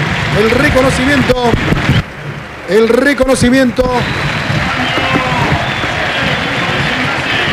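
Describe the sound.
A stadium crowd applauds and roars as a player leaves the pitch during a Gimnasia de Jujuy vs Gimnasia y Tiro football match. The dense, steady cheering runs throughout beneath an excited commentator's voice.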